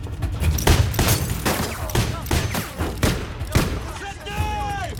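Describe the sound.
Gunfire exchange with rounds peppering a car's bodywork: loud, dense bursts of many shots in rapid succession, sharp cracks and impacts overlapping throughout.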